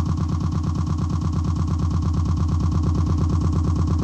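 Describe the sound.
A loud machine drone credited to the BDC-107 ultrasonic effects device: a low, throbbing rumble with rapid, regular pulses that holds steady throughout, with no voices.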